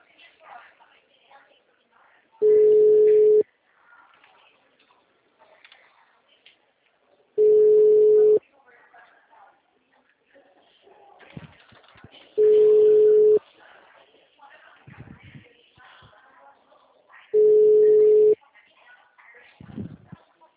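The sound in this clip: Telephone line tones while a call is being redialed: four steady mid-pitched beeps, each about a second long and spaced roughly five seconds apart, with faint murmured talk in the gaps.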